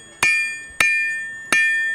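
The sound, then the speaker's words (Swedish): Hammer blows from a medieval blacksmith of the kind kept aboard ships: three sharp metallic strikes, unevenly spaced, each ringing on with a bright, bell-like tone that slowly fades. “det som ni hör nu, det är en medeltida smed, en sån som faktiskt fanns på skeppen.”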